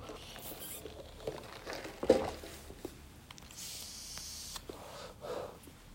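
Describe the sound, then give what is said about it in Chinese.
Someone sipping coffee: a few soft slurps and airy breaths with small mouth clicks, one sharper sound near the middle, all fairly quiet. “但是喝口咖啡，我说累了”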